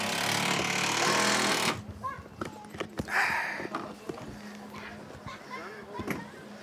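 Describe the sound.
Wood hammered into a worn wooden playground boat, 13 years old: a loud, steady rattling noise first, then several sharp knocks at uneven intervals while people talk.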